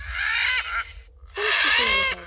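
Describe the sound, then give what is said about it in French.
Military macaw parrot calling: two loud, harsh, raspy squawks separated by a short gap. “C'est un ara militaire, perroquet aux plumes vertes, rouges et roses.”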